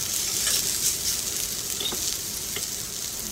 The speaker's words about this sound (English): And then immediately threw them on a cast iron griddle that was placed over the top of the gas burners on the stove.